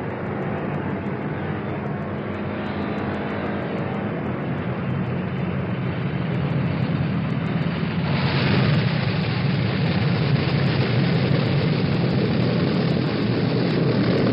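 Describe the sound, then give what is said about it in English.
An aircraft descends to land on a long runway, producing a broad, steady roar of engines and rushing air. The roar swells louder and rougher partway through and holds to the end. “That microphone you left 36 hours ago is again opened along the long runway to record you as you come down.”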